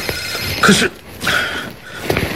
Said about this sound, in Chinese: 严老师，是你母亲的电话。 我知道。 那你怎么不接呢？